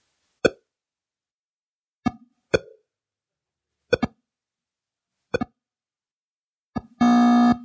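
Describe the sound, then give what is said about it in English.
Harsh electronic beeps from 1970s video games: a few sharp, isolated blips spaced apart, ending in a loud, sustained buzzy tone. “there is a certain musicality to these weird, harsh electronic beeps.”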